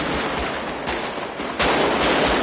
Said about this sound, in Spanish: Vincent, Casals y Draper disparan y rompen la ventanilla del conductor.